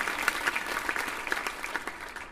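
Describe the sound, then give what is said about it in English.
Faint, lively applause for a school junior band of younger students. The clapping is dense and uneven, with scattered sharper claps standing out. “So ladies and gentlemen, come on, you can cheer bigger than that.”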